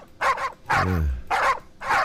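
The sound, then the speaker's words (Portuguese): A dog barks in the morning to wake people on a farm: a few loud, sharp barks in quick succession, alone with no talk. “vamos acordar, vamos. Isso é função sua. E aí, isso, vamos lá, latir de manhã pra acordar o pessoal.”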